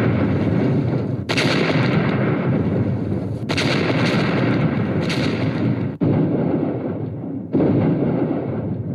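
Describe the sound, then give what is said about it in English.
Heavy artillery bombardment pounds German trenches on a First World War front line, a continuous roaring barrage punctuated by several sharp, loud blasts that renew the din. “And for the last few hours, the bombardment has been increased, the final crescendo to finish off the Germans.”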